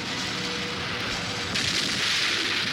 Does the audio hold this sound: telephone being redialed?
no